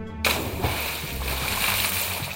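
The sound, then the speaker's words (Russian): A splash as someone is dragged into a river by a clawed creature: a sudden burst of water, then continuous churning and sloshing that carries on to the end. “К окну подошел, Радуню клешнями схватил и в реку утащил.”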